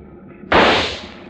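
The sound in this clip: A rifle shot fired from a ship: one loud, sharp crack bursts out of near quiet and leaves a noisy tail that fades over about a second.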